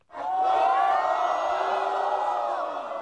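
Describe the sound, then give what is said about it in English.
A crowd roars a welcome for a world champion at the TNT pool hall in Xi'an, a loud, sustained wave of cheering, whoops and shouts that swells quickly and holds. “Well, hopefully the sound tells a bit of the story. I mean, he got an absolute rock star welcome when he walked into the TNT pool hall here in Xi'an.”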